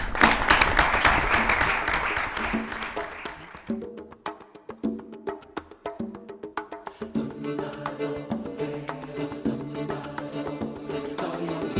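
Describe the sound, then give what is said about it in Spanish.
Audience applause at a public event: loud, dense clapping for a few seconds that quickly thins out and fades. Music with distinct plucked-sounding notes then takes over. “pido un aplauso para él”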